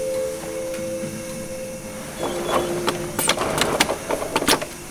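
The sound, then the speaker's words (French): A 3D cutting machine runs in a workshop, first a steady mechanical hum with a held tone, then a busier stretch of rapid clicks, knocks and clatter over the drone. “Alors ici, on est devant une, machine de coupe 3D.”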